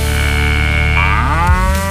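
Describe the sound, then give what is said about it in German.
A cow mooing: one long, loud, low moo with a rich, buzzing tone that rises in pitch toward the end and holds steady throughout. “Das war übrigens Elsa, eine Kuh.”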